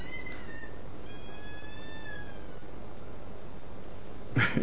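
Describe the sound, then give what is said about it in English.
A cat cries out at a window with two faint, drawn-out meows, the second longer and wavering, set against a steady hiss, with a brief louder burst near the end. “got a cat crying out in the window there”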